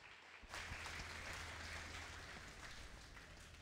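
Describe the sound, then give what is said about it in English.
Soft applause from an audience welcoming a guest speaker at a church retreat, starting abruptly after a brief pause and continuing as a steady, even patter. “所以我们来热烈的掌声来欢迎他。”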